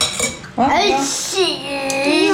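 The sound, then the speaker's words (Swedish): Food being mixed in a bowl, with clinking and scraping of a utensil against the dish under the voices of a child and an adult talking. “Jag blandar nu.”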